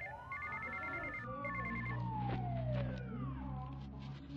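A telephone rings in two short trilling bursts, faint, over a low steady hum.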